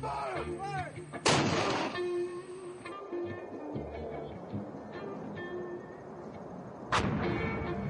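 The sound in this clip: Artillery firing during a military deployment: two heavy, sharp booms about six seconds apart stand out above a continuous low rumbling background.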